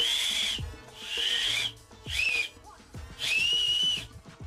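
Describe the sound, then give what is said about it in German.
Shrill whistle blown through an acorn cap held between the thumbs: four long, piercing high tones of fairly steady pitch, separated by short gaps, with soft rubbing noise around them. “Also ich halte meine Daumenknicke aneinander und puste dann zwischen meinen Daumennägeln durch. Wie rum hast du das Hütchen? Mit dem Pinöppel zu dir? In die Öffnung des Hütchens rein. Ja. So, und dann geht es nach zwei, dreimal. Ich kann es nachher vielleicht nochmal machen. Klingt ungefähr so.”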